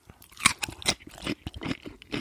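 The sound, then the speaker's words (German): Someone chewing and crunching cucumber: a series of crisp, irregular crunching bites and moist chewing sounds. The bites are moderately loud and carry no talk. “Ich lehne mich zurück und esse Gurke.”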